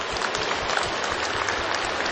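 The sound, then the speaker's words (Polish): An audience applauds at a community gathering in a church, with steady, dense clapping that continues at an even level throughout. “Raz jeszcze przekażmy nasze pozdrowienia poprzez oklaski dla Magdy Buczek, założycielki podwórkowych kółek różańcowych.”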